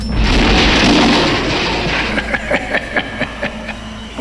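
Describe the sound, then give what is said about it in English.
A four-barrel shotgun fires in the film Phantasm III, a loud roaring blast that fades into a series of sharp, rapid cracks and reports. “Boy! Oh man, this four-barrel shotgun is a terrible weapon! It only shoots one thing four times!”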